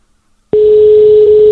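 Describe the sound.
Telephone ringback tone sounding while a call waits to be answered: one steady, loud tone at a single constant pitch starts abruptly after a brief silence and holds without a break to the end.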